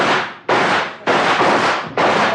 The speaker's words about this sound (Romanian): Vom încerca să-i alungăm trăgând asupra lor. Perfect. Veți vedea acum de ce e în stare Marius al vostru. Atențiune, ochiți, prieteni. Atențiune, foc!